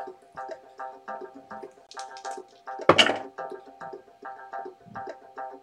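A pair of dice rolled onto a table during a tabletop role-playing game: one short, loud clatter over a steady tonal background.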